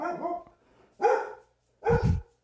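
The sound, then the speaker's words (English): A dog barking, three loud, distinct barks spaced about a second apart, the first more drawn-out and whiny than the two sharp ones after it. “it's my dog.”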